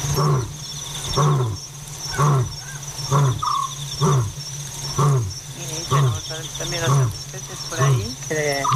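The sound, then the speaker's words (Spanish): A lion roars at night in a long series of deep, evenly spaced grunts, roughly one per second, each swelling and falling away, over a steady high chirping of insects. “El león tiene altavoz propio, decía Ramón Gómez de la Serna”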